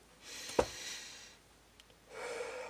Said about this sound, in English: All right, I need to take a breath.